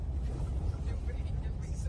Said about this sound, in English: She's driving. Describe. Yeah, she is flying down that dirt road there.